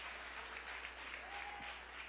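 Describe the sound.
A church audience applauding: dense, steady clapping from many hands that stays faint and even for the whole two seconds.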